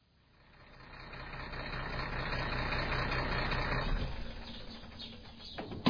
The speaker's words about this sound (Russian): Грузовик проехал ворота и остановился возле бетонных блоков, перегораживающих дорогу.